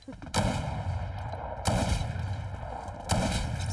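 Gunfire from a purple-rarity gun in the video game Fortnite: three loud, sharp blasts at roughly even intervals, each trailing into sustained noise that keeps a dense, harsh bed of sound between shots.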